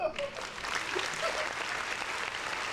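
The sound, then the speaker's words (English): An audience gives a round of applause: sustained clapping at an even level throughout, with voices talking over it. “Round of applause.”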